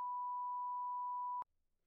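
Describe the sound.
A single censoring beep: a pure, steady mid-pitched tone held for about one and a half seconds, then cut off abruptly into near silence.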